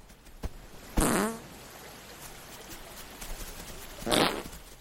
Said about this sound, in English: The ram chomps the rest of the headphones, turns and farts.